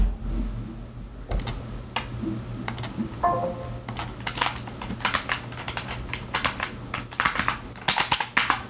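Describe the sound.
Typing on a computer keyboard to send a chat message: sparse clicks at first, then denser bursts of quick keystrokes in an uneven rhythm over a steady low hum.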